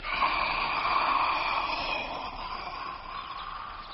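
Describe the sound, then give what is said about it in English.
A long, deep breath drawn in: a steady, breathy rush of air lasting several seconds that holds fairly even, then eases off slightly toward the end. “Take a deep breath in.”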